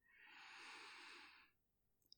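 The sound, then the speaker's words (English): One long, steady breath drawn in through the nose during a guided breathing exercise, a soft airy hiss lasting about a second and a half before fading to near silence. “So breathe in through your nose, hold it for 1 or 2 seconds, and then out through your mouth, okay? Okay, are you ready? Okay, so breathe in.”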